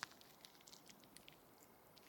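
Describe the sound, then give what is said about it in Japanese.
Fizzy, soft foam squished close to the ear, a faint crackling fizz with scattered tiny pops and a couple of slightly louder squishy bursts. “柔らかくてシュワシュワで気持ちいい。”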